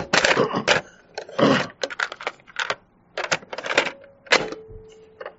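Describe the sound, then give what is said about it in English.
Clicks and clunks of a cassette tape being turned over in a recorder: a quick, fairly quiet series of sharp mechanical clatters separated by short gaps, with no one talking. “In this connection, let me just turn the tape over.”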